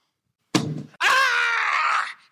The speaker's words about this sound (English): I think that very large book she threw may have broken my leg.